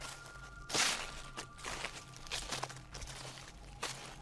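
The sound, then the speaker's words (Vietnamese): Light footsteps on dry leaves make a few faint, soft crunching steps at an unhurried pace against quiet background. “thì ở bên ngoài lại có tiếng bước chân nhẹ nhẹ dẫm lên đám lá khô.”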